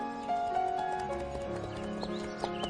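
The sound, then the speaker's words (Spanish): Hooves clip-clopping as two people ride out on horseback to a riverbank, a steady run of light hoof knocks over a sustained tonal background. “Con la aprobación del médico salieron a caballo Rodolfo y Emma y se apearon junto al río.”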